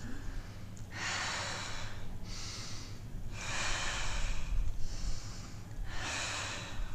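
Deep belly breathing during a breathwork exercise, heard as five airy, rushing breaths with short pauses between them, fairly quiet and with no talk.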